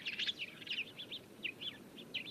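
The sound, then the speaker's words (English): A colony of weaver birds nesting together in a single tree near a village chatters faintly. Many quick, high chirps and twitters tumble over one another in an uneven, continuous stream. “there was one tree supporting a great chattering colony of weaver birds.”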